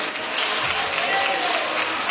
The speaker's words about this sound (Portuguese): Recebamos o servo do Senhor com palmas, mais alegres, mais alegres.